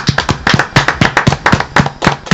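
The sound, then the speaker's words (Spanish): Hand clapping as applause in tribute to a departed rock musician: quick, sharp claps in a dense, uneven patter from a few hands, loud and continuous throughout. “Así que un aplauso para el chicano, que se fue.”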